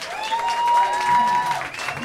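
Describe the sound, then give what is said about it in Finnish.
Crowd applause at a jazz festival club night: steady, dense clapping that holds at an even level for about two seconds. “isommat aplodit tarvitaan kyllä kulttuuritekoja jatkuvasti tekevälle Summer Jazz Festivalille ja Jatsbaarin porukalle. Hei, olisiko pienet Summer Jazzille?”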